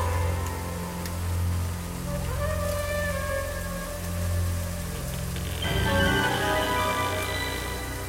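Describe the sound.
Pouring rain on a night street by a church, a steady, even hiss that runs without break, with low sustained droning tones underneath.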